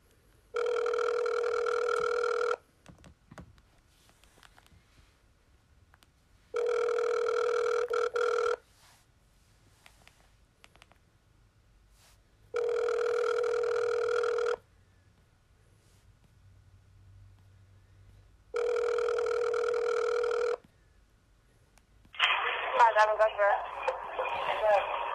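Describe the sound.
An outgoing telephone call ringing on the line: four evenly spaced ring tones, each lasting about two seconds, separated by quiet gaps, followed by a short rough burst of noise at the end.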